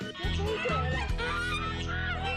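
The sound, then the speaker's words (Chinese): Loud, raucous honking from grown geese, many harsh nasal calls overlapping in quick succession without pause. “鹅都长大了，越长越大。 我就没打算吃它。”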